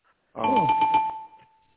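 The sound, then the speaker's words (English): A bell struck rapidly by a host at a live show gives a bright ringing tone with a quick pulsing flutter, then a single clear note lingers and fades. No voices are heard. “I'm just gonna hit the bell a few times right now.”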